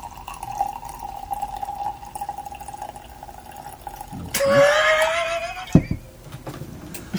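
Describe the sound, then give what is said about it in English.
Wine is poured into a glass: a gurgling stream lasting over a second with a tone that climbs as the glass fills, after a stretch of quiet, steady background hum. “I was pouring wine.”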